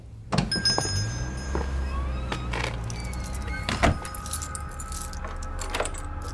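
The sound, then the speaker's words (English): Keys jangle as someone locks up a building. Soft, irregular metallic jingling continues throughout, broken by a sharper knock partway through and a few faint clicks. “I am currently exiting the building and am locking up.”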